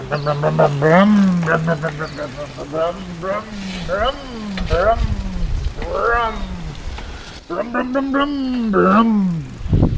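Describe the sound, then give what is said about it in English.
A voice imitates a revving motorcycle engine, making a run of rising and falling vroom-like wails with a few brief pauses between bursts. “Then I got on the two-wheeled beast and I pulled it off. And it sounded epic. Let me just crank up this piece of audio right here.”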